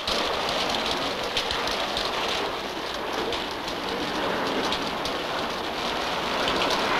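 Pouring rain falling on a prison camp, a dense, even hiss of heavy downpour that holds steady throughout.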